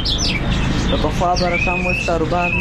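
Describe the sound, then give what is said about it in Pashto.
Songbirds, including canaries, bulbuls and parrots, sing at a bird market in Kandahar city. Bright chirps, whistles and warbling trills overlap in a dense, lively chorus that stays fairly loud throughout. “د کندهار ښار د مرغانو بازار کې کینری واټر چوغه کې بلبلان توتیان زرکی کرکان او ډول ډول مرغان ست”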